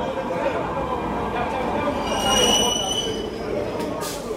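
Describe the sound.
A train rolls through an underground metro station at midnight at Plaza de Catalunya, a steady rumble laced with thin, high metallic wheel squeals that swell briefly in the middle.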